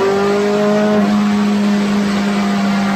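A race car engine in third gear, held up near 8,000 rpm through a corner, drones loudly and steadily for the whole clip, its buzzing tone holding nearly level without a break.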